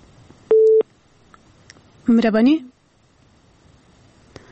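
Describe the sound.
A telephone line tone on a radio phone-in after a caller is cut off: one short, steady, loud beep, then a brief garbled burst a moment later, with quiet line noise between.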